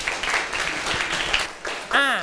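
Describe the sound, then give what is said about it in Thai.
Classroom students applauding a classmate, a brief burst of busy clapping that carries on until a voice cuts in near the end. “เอาปรบมือให้เพื่อนหน่อยครับ”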